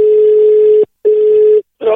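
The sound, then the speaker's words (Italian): Telephone dial tone and dialing: a loud, steady mid-pitched tone sounds twice with a short gap between, then gives way to a rougher burst of dialing tones. “Ora qui il numero è registrato, ora chiamo Carabinieri.”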